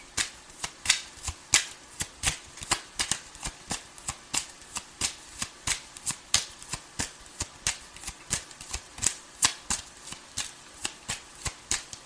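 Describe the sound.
Playing cards being drawn from a deck, heard as many crisp, sharp flicks and snaps in a fairly steady rhythm, each a brief papery click. No talk.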